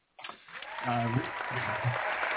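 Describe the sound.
A studio audience applauds, a dense steady wash of clapping that starts abruptly and carries on to the end while a voice talks over it.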